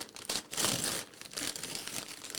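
Paper wrapping on a package crinkles and rips as it is opened, giving a few soft bursts of crumpling and tearing at low volume.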